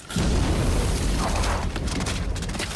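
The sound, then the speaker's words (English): A frozen dinosaur explodes into thousands of pieces with a loud, dense roaring blast. The deep rumbling noise fills the whole stretch at a steady high level and thins only slightly toward the end. “Suddenly, it explodes into thousands of pieces.”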